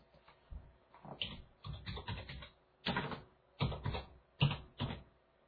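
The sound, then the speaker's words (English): Keyboard typing as a name is entered, irregular clusters of quick keystrokes separated by short pauses, fairly faint and with no talk. “Can you type in the name?”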